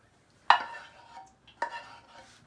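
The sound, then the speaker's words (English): A spoon scrapes food out of a container in two separate strokes. Each begins with a sharp clink and trails off into a softer scraping sound, with a short quiet gap between them, against a quiet background. “I'm going to see if I can get any more out with the spoon, which I can hear that I am getting some out.”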